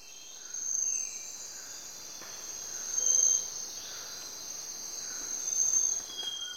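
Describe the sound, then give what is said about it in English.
Insects chirp in a tropical forest in Ecuador, a dense, steady high-pitched drone of crickets that swells gently a few times. “This is the sound of a tropical forest in Ecuador.”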